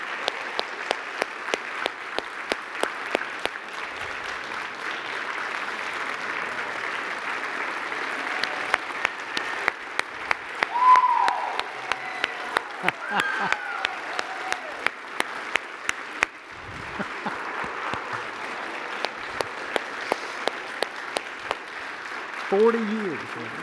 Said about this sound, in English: Could y'all welcome Wiley Couch to the platform?